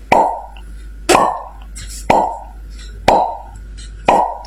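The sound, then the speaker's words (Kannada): Soda bottles being popped open at a small neighbourhood shop. Five sharp, loud plops come evenly about a second apart, each with a short fading tail, and no other sound between them. “ಅಲ್ಲೇ soda ಬಾಟಲಿಯನ್ನು ಹೊಡೆಯುತ್ತಿದ್ದವು.”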